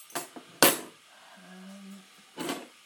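Metal teaspoons are handled, giving a few bright, sharp clinks close together at the start, a quiet stretch with a low hum, then one more clink near the end.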